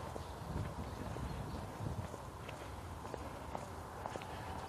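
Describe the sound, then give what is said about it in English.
Footsteps of someone walking through a park: faint, steady steps set in a dense, noisy outdoor background. “But I'm walking along the park.”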